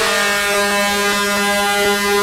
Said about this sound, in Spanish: Vea, a mí me gusta, por ejemplo, este pito, vea. Este pito me encanta